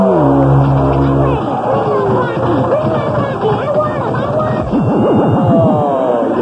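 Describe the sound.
The Whammy sound effect plays on the Press Your Luck game show, a loud, busy jumble of sweeping electronic tones that ends in rapid warbling up-and-down zigzags, with voices mixed underneath.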